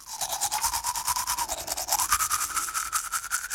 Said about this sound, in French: Le soir, avant de dormir, je me brosse les dents.